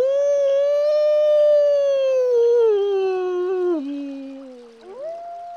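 A person imitating a wolf howl: one long, sustained, clear tone that slides gradually lower over several seconds, dips, then ends with a short upward lift in pitch.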